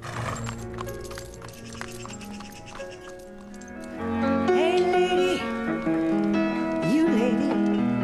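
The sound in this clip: Hoofbeats of a horse ridden away at speed into dense forest, heard beneath loud, swelling orchestral music that dominates throughout.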